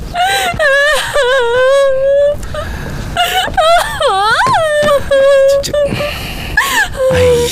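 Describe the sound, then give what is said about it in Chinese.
A woman crying: high, wavering wails and whimpering sobs with pitch that bends up and down, coming in several drawn-out bursts that run through the whole clip. “哎呀，姑奶奶，行了，别哭了。”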